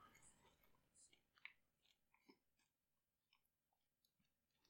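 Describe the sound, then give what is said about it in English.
Faint, wet chewing of a mouthful of vodka-soaked marshmallows, with soft squelching and a few sharper crunchy bursts spread irregularly through it. “I'm slurring my words. I got a mouthful of marshmallows. And vodka. I like to soak my marshmallows in vodka.”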